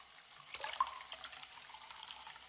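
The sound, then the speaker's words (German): Water runs from a tap into a washbasin with the plug in, a soft, steady hiss and splash that stays fairly faint throughout, with no voices. “So, ein Stöpsel rein. Wasser ins Waschbecken.”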